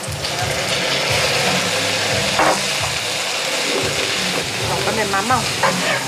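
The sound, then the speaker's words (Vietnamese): Loud, steady sizzling as pigeon fries in a pan with a little onion for pan-fried pigeon sticky rice, with light stirring scrapes throughout and a brief voice near the end. “Bây giờ mình làm xôi bồ câu ép chảo. Ít hành một tí. Giờ mình cho bồ câu vô.”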